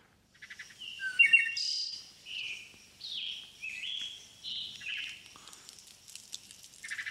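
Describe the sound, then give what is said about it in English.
Birds chirping outside a window: quick, high-pitched chirps and short warbling phrases follow one another in a loose series. They stay fairly soft throughout, with no other sounds. “So birds chirping outside your window may indicate normality”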